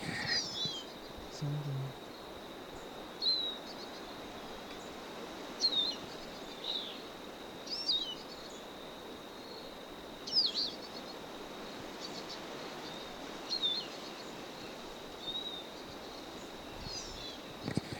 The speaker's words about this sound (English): Stop. A bird.